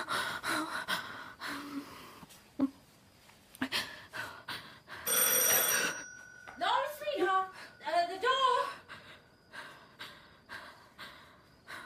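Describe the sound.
A front doorbell gives one bright, ringing burst of about a second while a mother and daughter argue over answering the door. Anxious talk, gasps and heavy breathing come before and after the ring.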